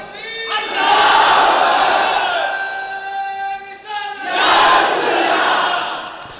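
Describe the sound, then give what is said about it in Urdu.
A crowd at a religious gathering shouts a slogan in unison, two loud bursts of massed voices with a short dip between them. “مگر مجمع سے نعرہ لگنا چاہیے”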